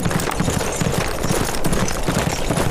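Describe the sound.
Horse hooves of a cavalry squad galloping off at night, a rapid, driving rhythm of loud thudding beats that pounds on without a break.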